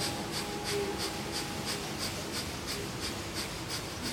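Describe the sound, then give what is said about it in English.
Breath of fire, a rapid yoga breathing exercise: many quick, evenly spaced, airy nasal exhalations, about three per second in a steady rhythm, fairly faint, with no talking. “Eyes closed, begin breath of fire.”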